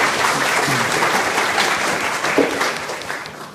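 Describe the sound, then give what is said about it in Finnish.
An audience applauds a panel of speakers after a Finnish discussion session, with a full, sustained burst of clapping that gradually thins and fades toward the end. “Kiitokset Päivi, Hannu ja Hanno. Taputetaan tälle porukalle.”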